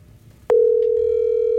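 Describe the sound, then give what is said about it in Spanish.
A telephone dial tone sounds as a call is placed. A click precedes it, then one loud, steady, unbroken tone holds to the end. “A ver, yo lo llamo. Yo arranco de una. Yo lo voy a llamar.”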